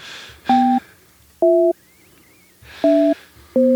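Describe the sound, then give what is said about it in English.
Touch-tone telephone keypad beeps while dialing a phone number: four separate steady two-pitch tones, each about a third of a second long, with slightly different pitches from press to press and faint line hiss between them. “I wonder if you can, like, tell what numbers I'm dialing based on the way the tone goes.”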